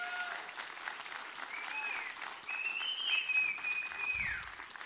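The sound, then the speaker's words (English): A church audience gives a round of applause, a faint, even wash of clapping that swells slightly near the end. “now I wonder if they're going to keep clapping after this one here, though.”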